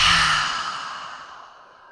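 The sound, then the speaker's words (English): Deep exhale of breath during a guided breathing exercise: one long, airy, breathy release that starts strong and fades gradually over about two seconds, heard alone. “And now let it go. Exhale.”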